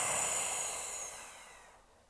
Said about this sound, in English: Deep breath in. Exhale it out.